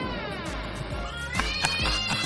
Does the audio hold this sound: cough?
no

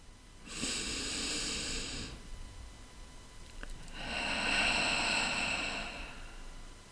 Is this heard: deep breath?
yes

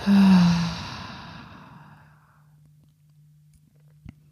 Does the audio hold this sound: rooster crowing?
no

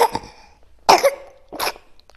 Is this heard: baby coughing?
yes

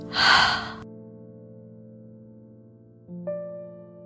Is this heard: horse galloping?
no

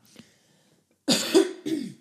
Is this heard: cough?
yes

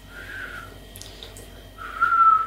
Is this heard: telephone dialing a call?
no

